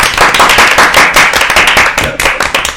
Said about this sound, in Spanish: un aplauso, un aplauso